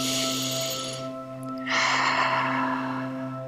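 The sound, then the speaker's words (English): A deep breath is drawn in, then let out through the mouth. The breathy airflow is soft and sustained, with a short pause between intake and release, over steady droning tones. “Take a deep breath in and let it out through your mouth.”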